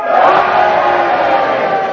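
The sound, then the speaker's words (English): An audience at a panel game cheers and boos together in one loud, sustained roar of mixed voices that holds steady without pause. “if you agree with Kenneth's challenge, you cheer for him, and if you disagree, you boo for me, and you all do it together now.”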